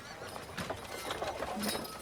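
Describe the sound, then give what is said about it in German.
Horse hooves clip-clopping as riders arrive at a castle with a lowered drawbridge, in a tabletop role-playing game; faint, irregular hoof beats that continue throughout. “Ihr sattelt oder lasst die Pferde bei den Stallungen.”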